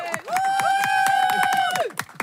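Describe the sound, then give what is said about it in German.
Applause in a crowd after a challenge is completed. Quick, steady claps sound under a long sustained tone that masks much of the clapping. “Challenge geschafft. Bravo. Applaus.”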